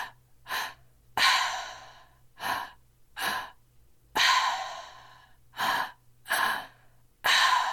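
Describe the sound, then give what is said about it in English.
Two-part breathing in and out through the mouth, shown as a series of about eight loud, airy breath sounds. Short, sharp pulls alternate with longer rushing breaths in a steady, deliberate rhythm, with nobody talking. “all of it is in and out of my mouth, and it's a two-part inhale.”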